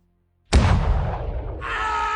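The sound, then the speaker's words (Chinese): A single loud gunshot fired into a man's leg, an abrupt boom after silence that decays in a rumbling tail, followed by a sustained higher tone. “又是一声惨叫，李炫对着他的另一条腿又开了一枪，两条大腿都被打穿了”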